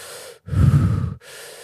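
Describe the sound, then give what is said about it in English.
Fast, deep breaths from a Wim Hof breathing exercise: three airy breaths in quick succession with short pauses between them, the middle one louder and heavier than the others. “I personally do 3 sets of 30 breaths. They start slow, and then as I get past 5, I go”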